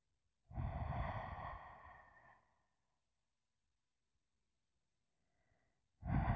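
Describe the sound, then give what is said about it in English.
Heavy breathing: one long, airy, drawn-out breath of about two seconds fades into silence, and a second breath begins right at the end. Fairly soft. “Do the heavy breathing.”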